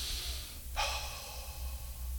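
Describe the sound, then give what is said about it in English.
A person outdoors in crisp, cool air draws one deep breath: a sudden airy rush that settles into a faint, steady hiss over a low background hum. “Every day, brethren, take some deep breaths. Breathe in and breathe out”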